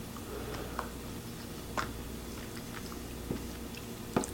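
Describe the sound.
Faint, soft chewing of mild turkey chili, with a few quiet, moist bites and clicks spaced out over steady low background noise.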